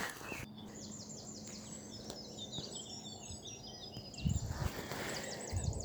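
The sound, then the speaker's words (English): Birdsong at dawn by a river, with water birds on a nearby lake: many quick, high chirps and warbles run through the whole stretch over a steady outdoor hiss. “I'm hoping you can hear some of that bird song in the background. I can hear a cuckoo as well as all the water birds that are on the nearby lake.”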